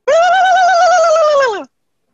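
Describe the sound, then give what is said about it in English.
A person imitates a wild turkey call with one sustained, tonal, cooing note at a steady pitch that drops off sharply at the end before silence. “So the wild turkey sounds like this.”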